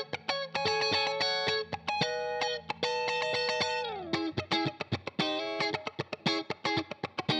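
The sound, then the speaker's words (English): Draft guitar track with effects, transposed up two semitones: sustained, layered chords ring for about four seconds and bend downward, then give way to a run of short, rhythmic plucked notes. “And I came up with a guitar track that's quite similar.”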